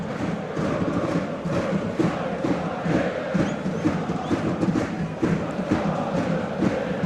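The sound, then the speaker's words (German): Schalke fans celebrate in the stadium at Alte Försterei, a massed crowd chanting and singing in rhythmic pulses at a moderate, steady level. “Ihr könnt dafür die feiernden Schalke-Fans hören im Stadion an der Alten Försterei.”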